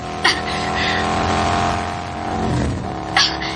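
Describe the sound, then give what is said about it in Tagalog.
Motorcycle engine revving hard as it speeds up, a sustained buzzing drone with strong harmonics and two brief sharp bursts near the start and end. “Pakusgan ako ang pagpiragan ining motor.”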